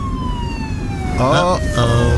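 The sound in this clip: Police car siren from Officer Cliffy pulling a car over: a steady wailing tone slides slowly downward in pitch the whole time, with a voice speaking briefly over it.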